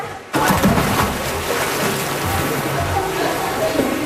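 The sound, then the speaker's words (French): A woman dives through a hoop into water, making a sudden loud splash. Steady churning, sloshing water noise follows and continues to the end. “Voilà, elle vient de plonger au travers du cerceau.”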